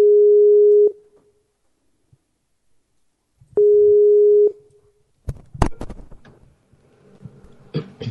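Telephone line tone while a call is connected through a computer: two steady low beeps, each about a second long and separated by a long pause, followed by clicks and rustling handling noise.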